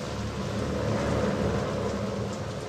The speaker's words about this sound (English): It's still pouring with rain in the daytime at Lae, Papua New Guinea